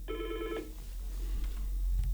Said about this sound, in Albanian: Telefonat, do të mundohem ta lidhi